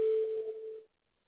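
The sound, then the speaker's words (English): A phone gives a short notification tone as an email arrives: one faint, steady beep that lasts under a second, wavers slightly, then cuts off into silence. “No, that was May receiving the email that I forwarded from my phone that you sent me.”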